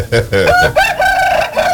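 A rooster crows loudly. Short clucking notes lead into a long, drawn-out call whose tone rises and then holds before it breaks off.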